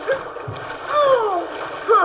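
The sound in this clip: River rapids splash as a horse is swum through the water, with intermittent splashes and voices talking over them.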